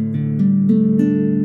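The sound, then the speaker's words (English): Guitar strings in open DADGAD tuning are played one by one in a quick rolled strum, the notes stacking into a sustained, ringing chord. “So without our finger on, it sounds like this.”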